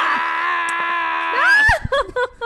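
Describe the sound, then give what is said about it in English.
A person yells with one loud, sustained cry held at a steady pitch, which climbs higher near the end and then breaks into short, choppy bursts. “I'm going to yell.”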